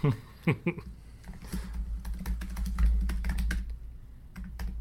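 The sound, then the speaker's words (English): Typing on a computer keyboard: many quick, uneven clicks and taps in bursts over a steady low hum, with no one talking. “if I had a pen right now, I would write down what I'm going to predict. And so instead, I'm going to type it.”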